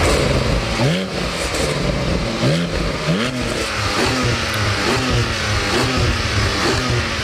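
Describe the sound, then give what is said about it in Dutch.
The engine of a Porsche 718 Cayman GT4 revs on a driveway, many rising revving sweeps following one another in a loud, continuous run. “Wat was het? Een Porsche 718 Cayman GT4.”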